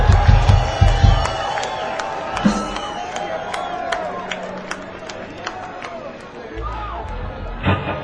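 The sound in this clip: An audience cheers and whoops to welcome a performer onto the stage at a show in Kansas City. The crowd noise is loud and steady, with voices and chatter mixed through it.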